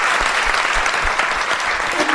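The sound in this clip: Studio audience applause fills the whole stretch: dense, steady clapping from a crowd at an even loudness, with no break or fade.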